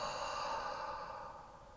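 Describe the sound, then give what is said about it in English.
A single long, breathy exhale during a guided breathing exercise, letting all the air out. It is soft and steady, with no voices, and fades gradually toward the end. “Audible exhale. Let all of the air go.”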